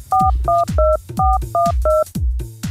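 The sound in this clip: Touch-tone telephone dialing as a number is keyed in to call a prize winner: a quick run of about seven loud two-tone beeps, each with a low button thump, in a slightly uneven rhythm with no voices.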